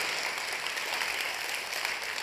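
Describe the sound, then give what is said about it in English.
A church audience applauds to welcome guests. The clapping is dense and continuous, and stays at an even level throughout without any voices. “Let's put our hands together and welcome all of our guests to church today.”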